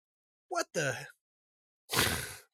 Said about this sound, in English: I think it was like a wake up sneeze.